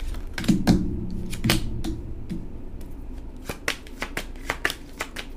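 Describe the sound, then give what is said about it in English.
A deck of tarot cards is shuffled and cards are pulled, giving many quick papery riffles and sharp flicks in an uneven rhythm. “Okay, so I pulled 9 cards. Bottom of the deck.”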